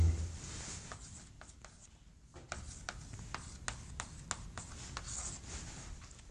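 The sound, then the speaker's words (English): Writing notes by hand: faint scratching pen strokes in a quick, irregular series of many short marks. “I'm going to write, let's see.”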